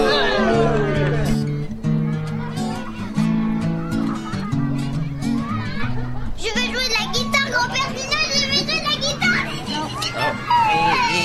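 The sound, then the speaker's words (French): A small child cries at a playground, with high, strained wails rising and falling amid loud chatter and calls from other children. “mais pourquoi tu pleures?”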